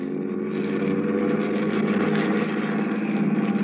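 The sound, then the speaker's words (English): A car engine drones steadily and loudly as the car pulls away, a continuous low rumble that holds an even level for the whole stretch with no voices over it. “Ed Porter settled the hat lower on his ears and gripped the wheel harder, and we took off for Angelo's on Stoker Street.”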